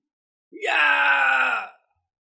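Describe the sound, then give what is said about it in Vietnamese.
One anguished, drawn-out human wail, loud and strained, rises quickly at its start and holds steady for about a second before cutting off abruptly into silence. “Những tiếng kêu thảm thiết thê lương liên tiếp vang lên.”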